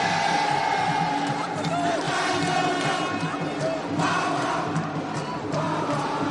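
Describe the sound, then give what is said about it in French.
Stadium crowd chanting during a sports match: a dense, continuous roar of many voices with sung tones rising above it, loud and steady throughout. “Espérons que les chants du public l'aident dans ce moment délicat.”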